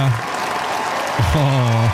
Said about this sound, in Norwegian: dronning Sonja til slutt, som fikk seg en ekstra applaus, varm applaus fra slottet